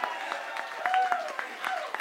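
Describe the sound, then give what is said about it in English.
Audience applause for debaters at the close of a debate night, a dense, steady patter of many hands clapping throughout. “Round of applause for all our debaters tonight.”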